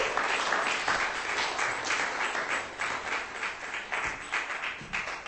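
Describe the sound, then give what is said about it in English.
Audience applause greets a speaker taking the stage at a reading: a steady, dense patter of many hands clapping that keeps going without a break, with slight swells and dips in loudness throughout. “Give him a hand. Please welcome Dr. Gary Wade to the stage.”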